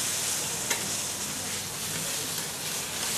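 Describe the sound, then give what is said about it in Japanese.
Sizzling stir-fry of squid, pork, sakura shrimp, shiitake and egg for Fujinomiya-style yakisoba, a steady, dense hiss of frying with faint scraping and one brief sharp clack early on. “イカと豚肉と桜えびですか桜えび、しいたけあと最後に卵が入りますねまずそれを炒めると”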